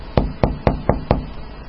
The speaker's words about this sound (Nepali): यहाँ ढोका ढकढकाइरहेको देखिनस्?